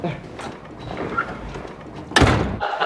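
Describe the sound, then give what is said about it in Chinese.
A door is pushed shut, a single solid thud near the end that stands out above a quiet, murmuring background. “门关上。”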